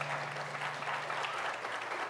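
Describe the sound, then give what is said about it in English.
Audience applause at a morning festival panel on the future of conservatism, a steady, even wash of clapping that holds at a moderate, fairly quiet level throughout without rising or fading. “That is a heartening round of applause for the idea of a future”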